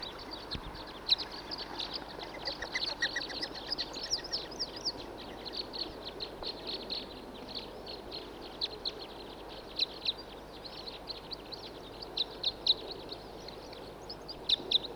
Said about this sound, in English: It's recording a male calling and singing from quite a ways away. Here comes a huge flock.